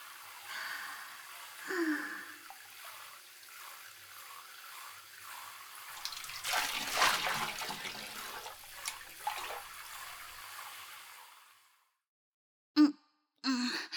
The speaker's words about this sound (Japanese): っていうかシャワー貸してよ、寒いんですけど。うん、 高いシャワー気持ちいい。